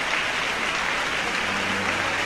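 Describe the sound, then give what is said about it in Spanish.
Sustained applause from a symphony concert audience, steady and dense, clapping on without a break after the conductor leaves the podium; no voices stand out. “Gianfranco Marcelletti se ha retirado ahora del podio, pero el público no ha dejado de aplaudir”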